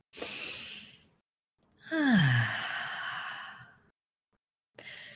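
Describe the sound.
A deep breath taken alone: a short, airy inhale, then after a pause a long sighing exhale that opens with a falling voiced tone and fades out slowly, followed by the start of another breath.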